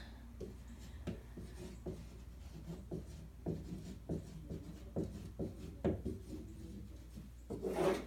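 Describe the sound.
Pen or marker writing by hand: many short, scratchy strokes in an irregular rhythm, each a brief rasp followed by small pauses. No talk, and a longer rubbing scrape comes at the end.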